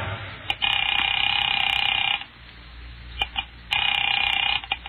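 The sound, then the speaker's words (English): A telephone ringing on the line after a number is dialed: two long electronic ring bursts separated by a pause, with a few faint clicks between them. The second ring runs to the end. “Picking it up quietly, I dialed my daughter's number, Alec Bartlett's wife.”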